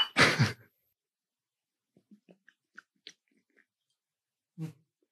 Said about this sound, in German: Schluckgeräusche zu laut, ne? Im Podcast.